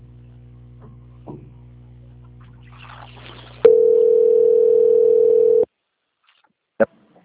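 A telephone tone plays while a call is transferred to a quality-control line. Low line hum leads into a loud, steady single-pitch tone lasting about two seconds, followed by silence and one short beep.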